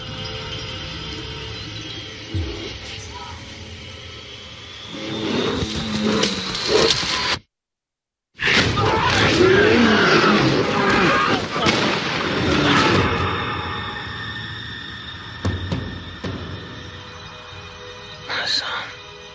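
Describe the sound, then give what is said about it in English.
Trailer sound for the film The Revenant with Leonardo DiCaprio: loud gunfire and booming blasts mixed with voices, broken by a brief silent cut, then more dense, heavy action noise. “This is the one where we review The Revenant, starring Leonardo DiCaprio. Jacob, hit me with that trailer.”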